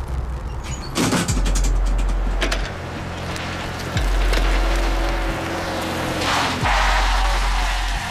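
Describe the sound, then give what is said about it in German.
Two men get out of a car: car doors open and shut with several thuds and clunks over a low, steady engine rumble. “Zwei Männer steigen aus dem mattroten Auto.”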